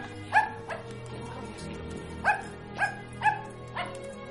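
A dog barks inside a mansion: several sharp, fairly high-pitched barks come at irregular intervals over a low, steady background hum.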